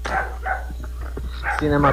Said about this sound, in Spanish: Y empiezan los perros.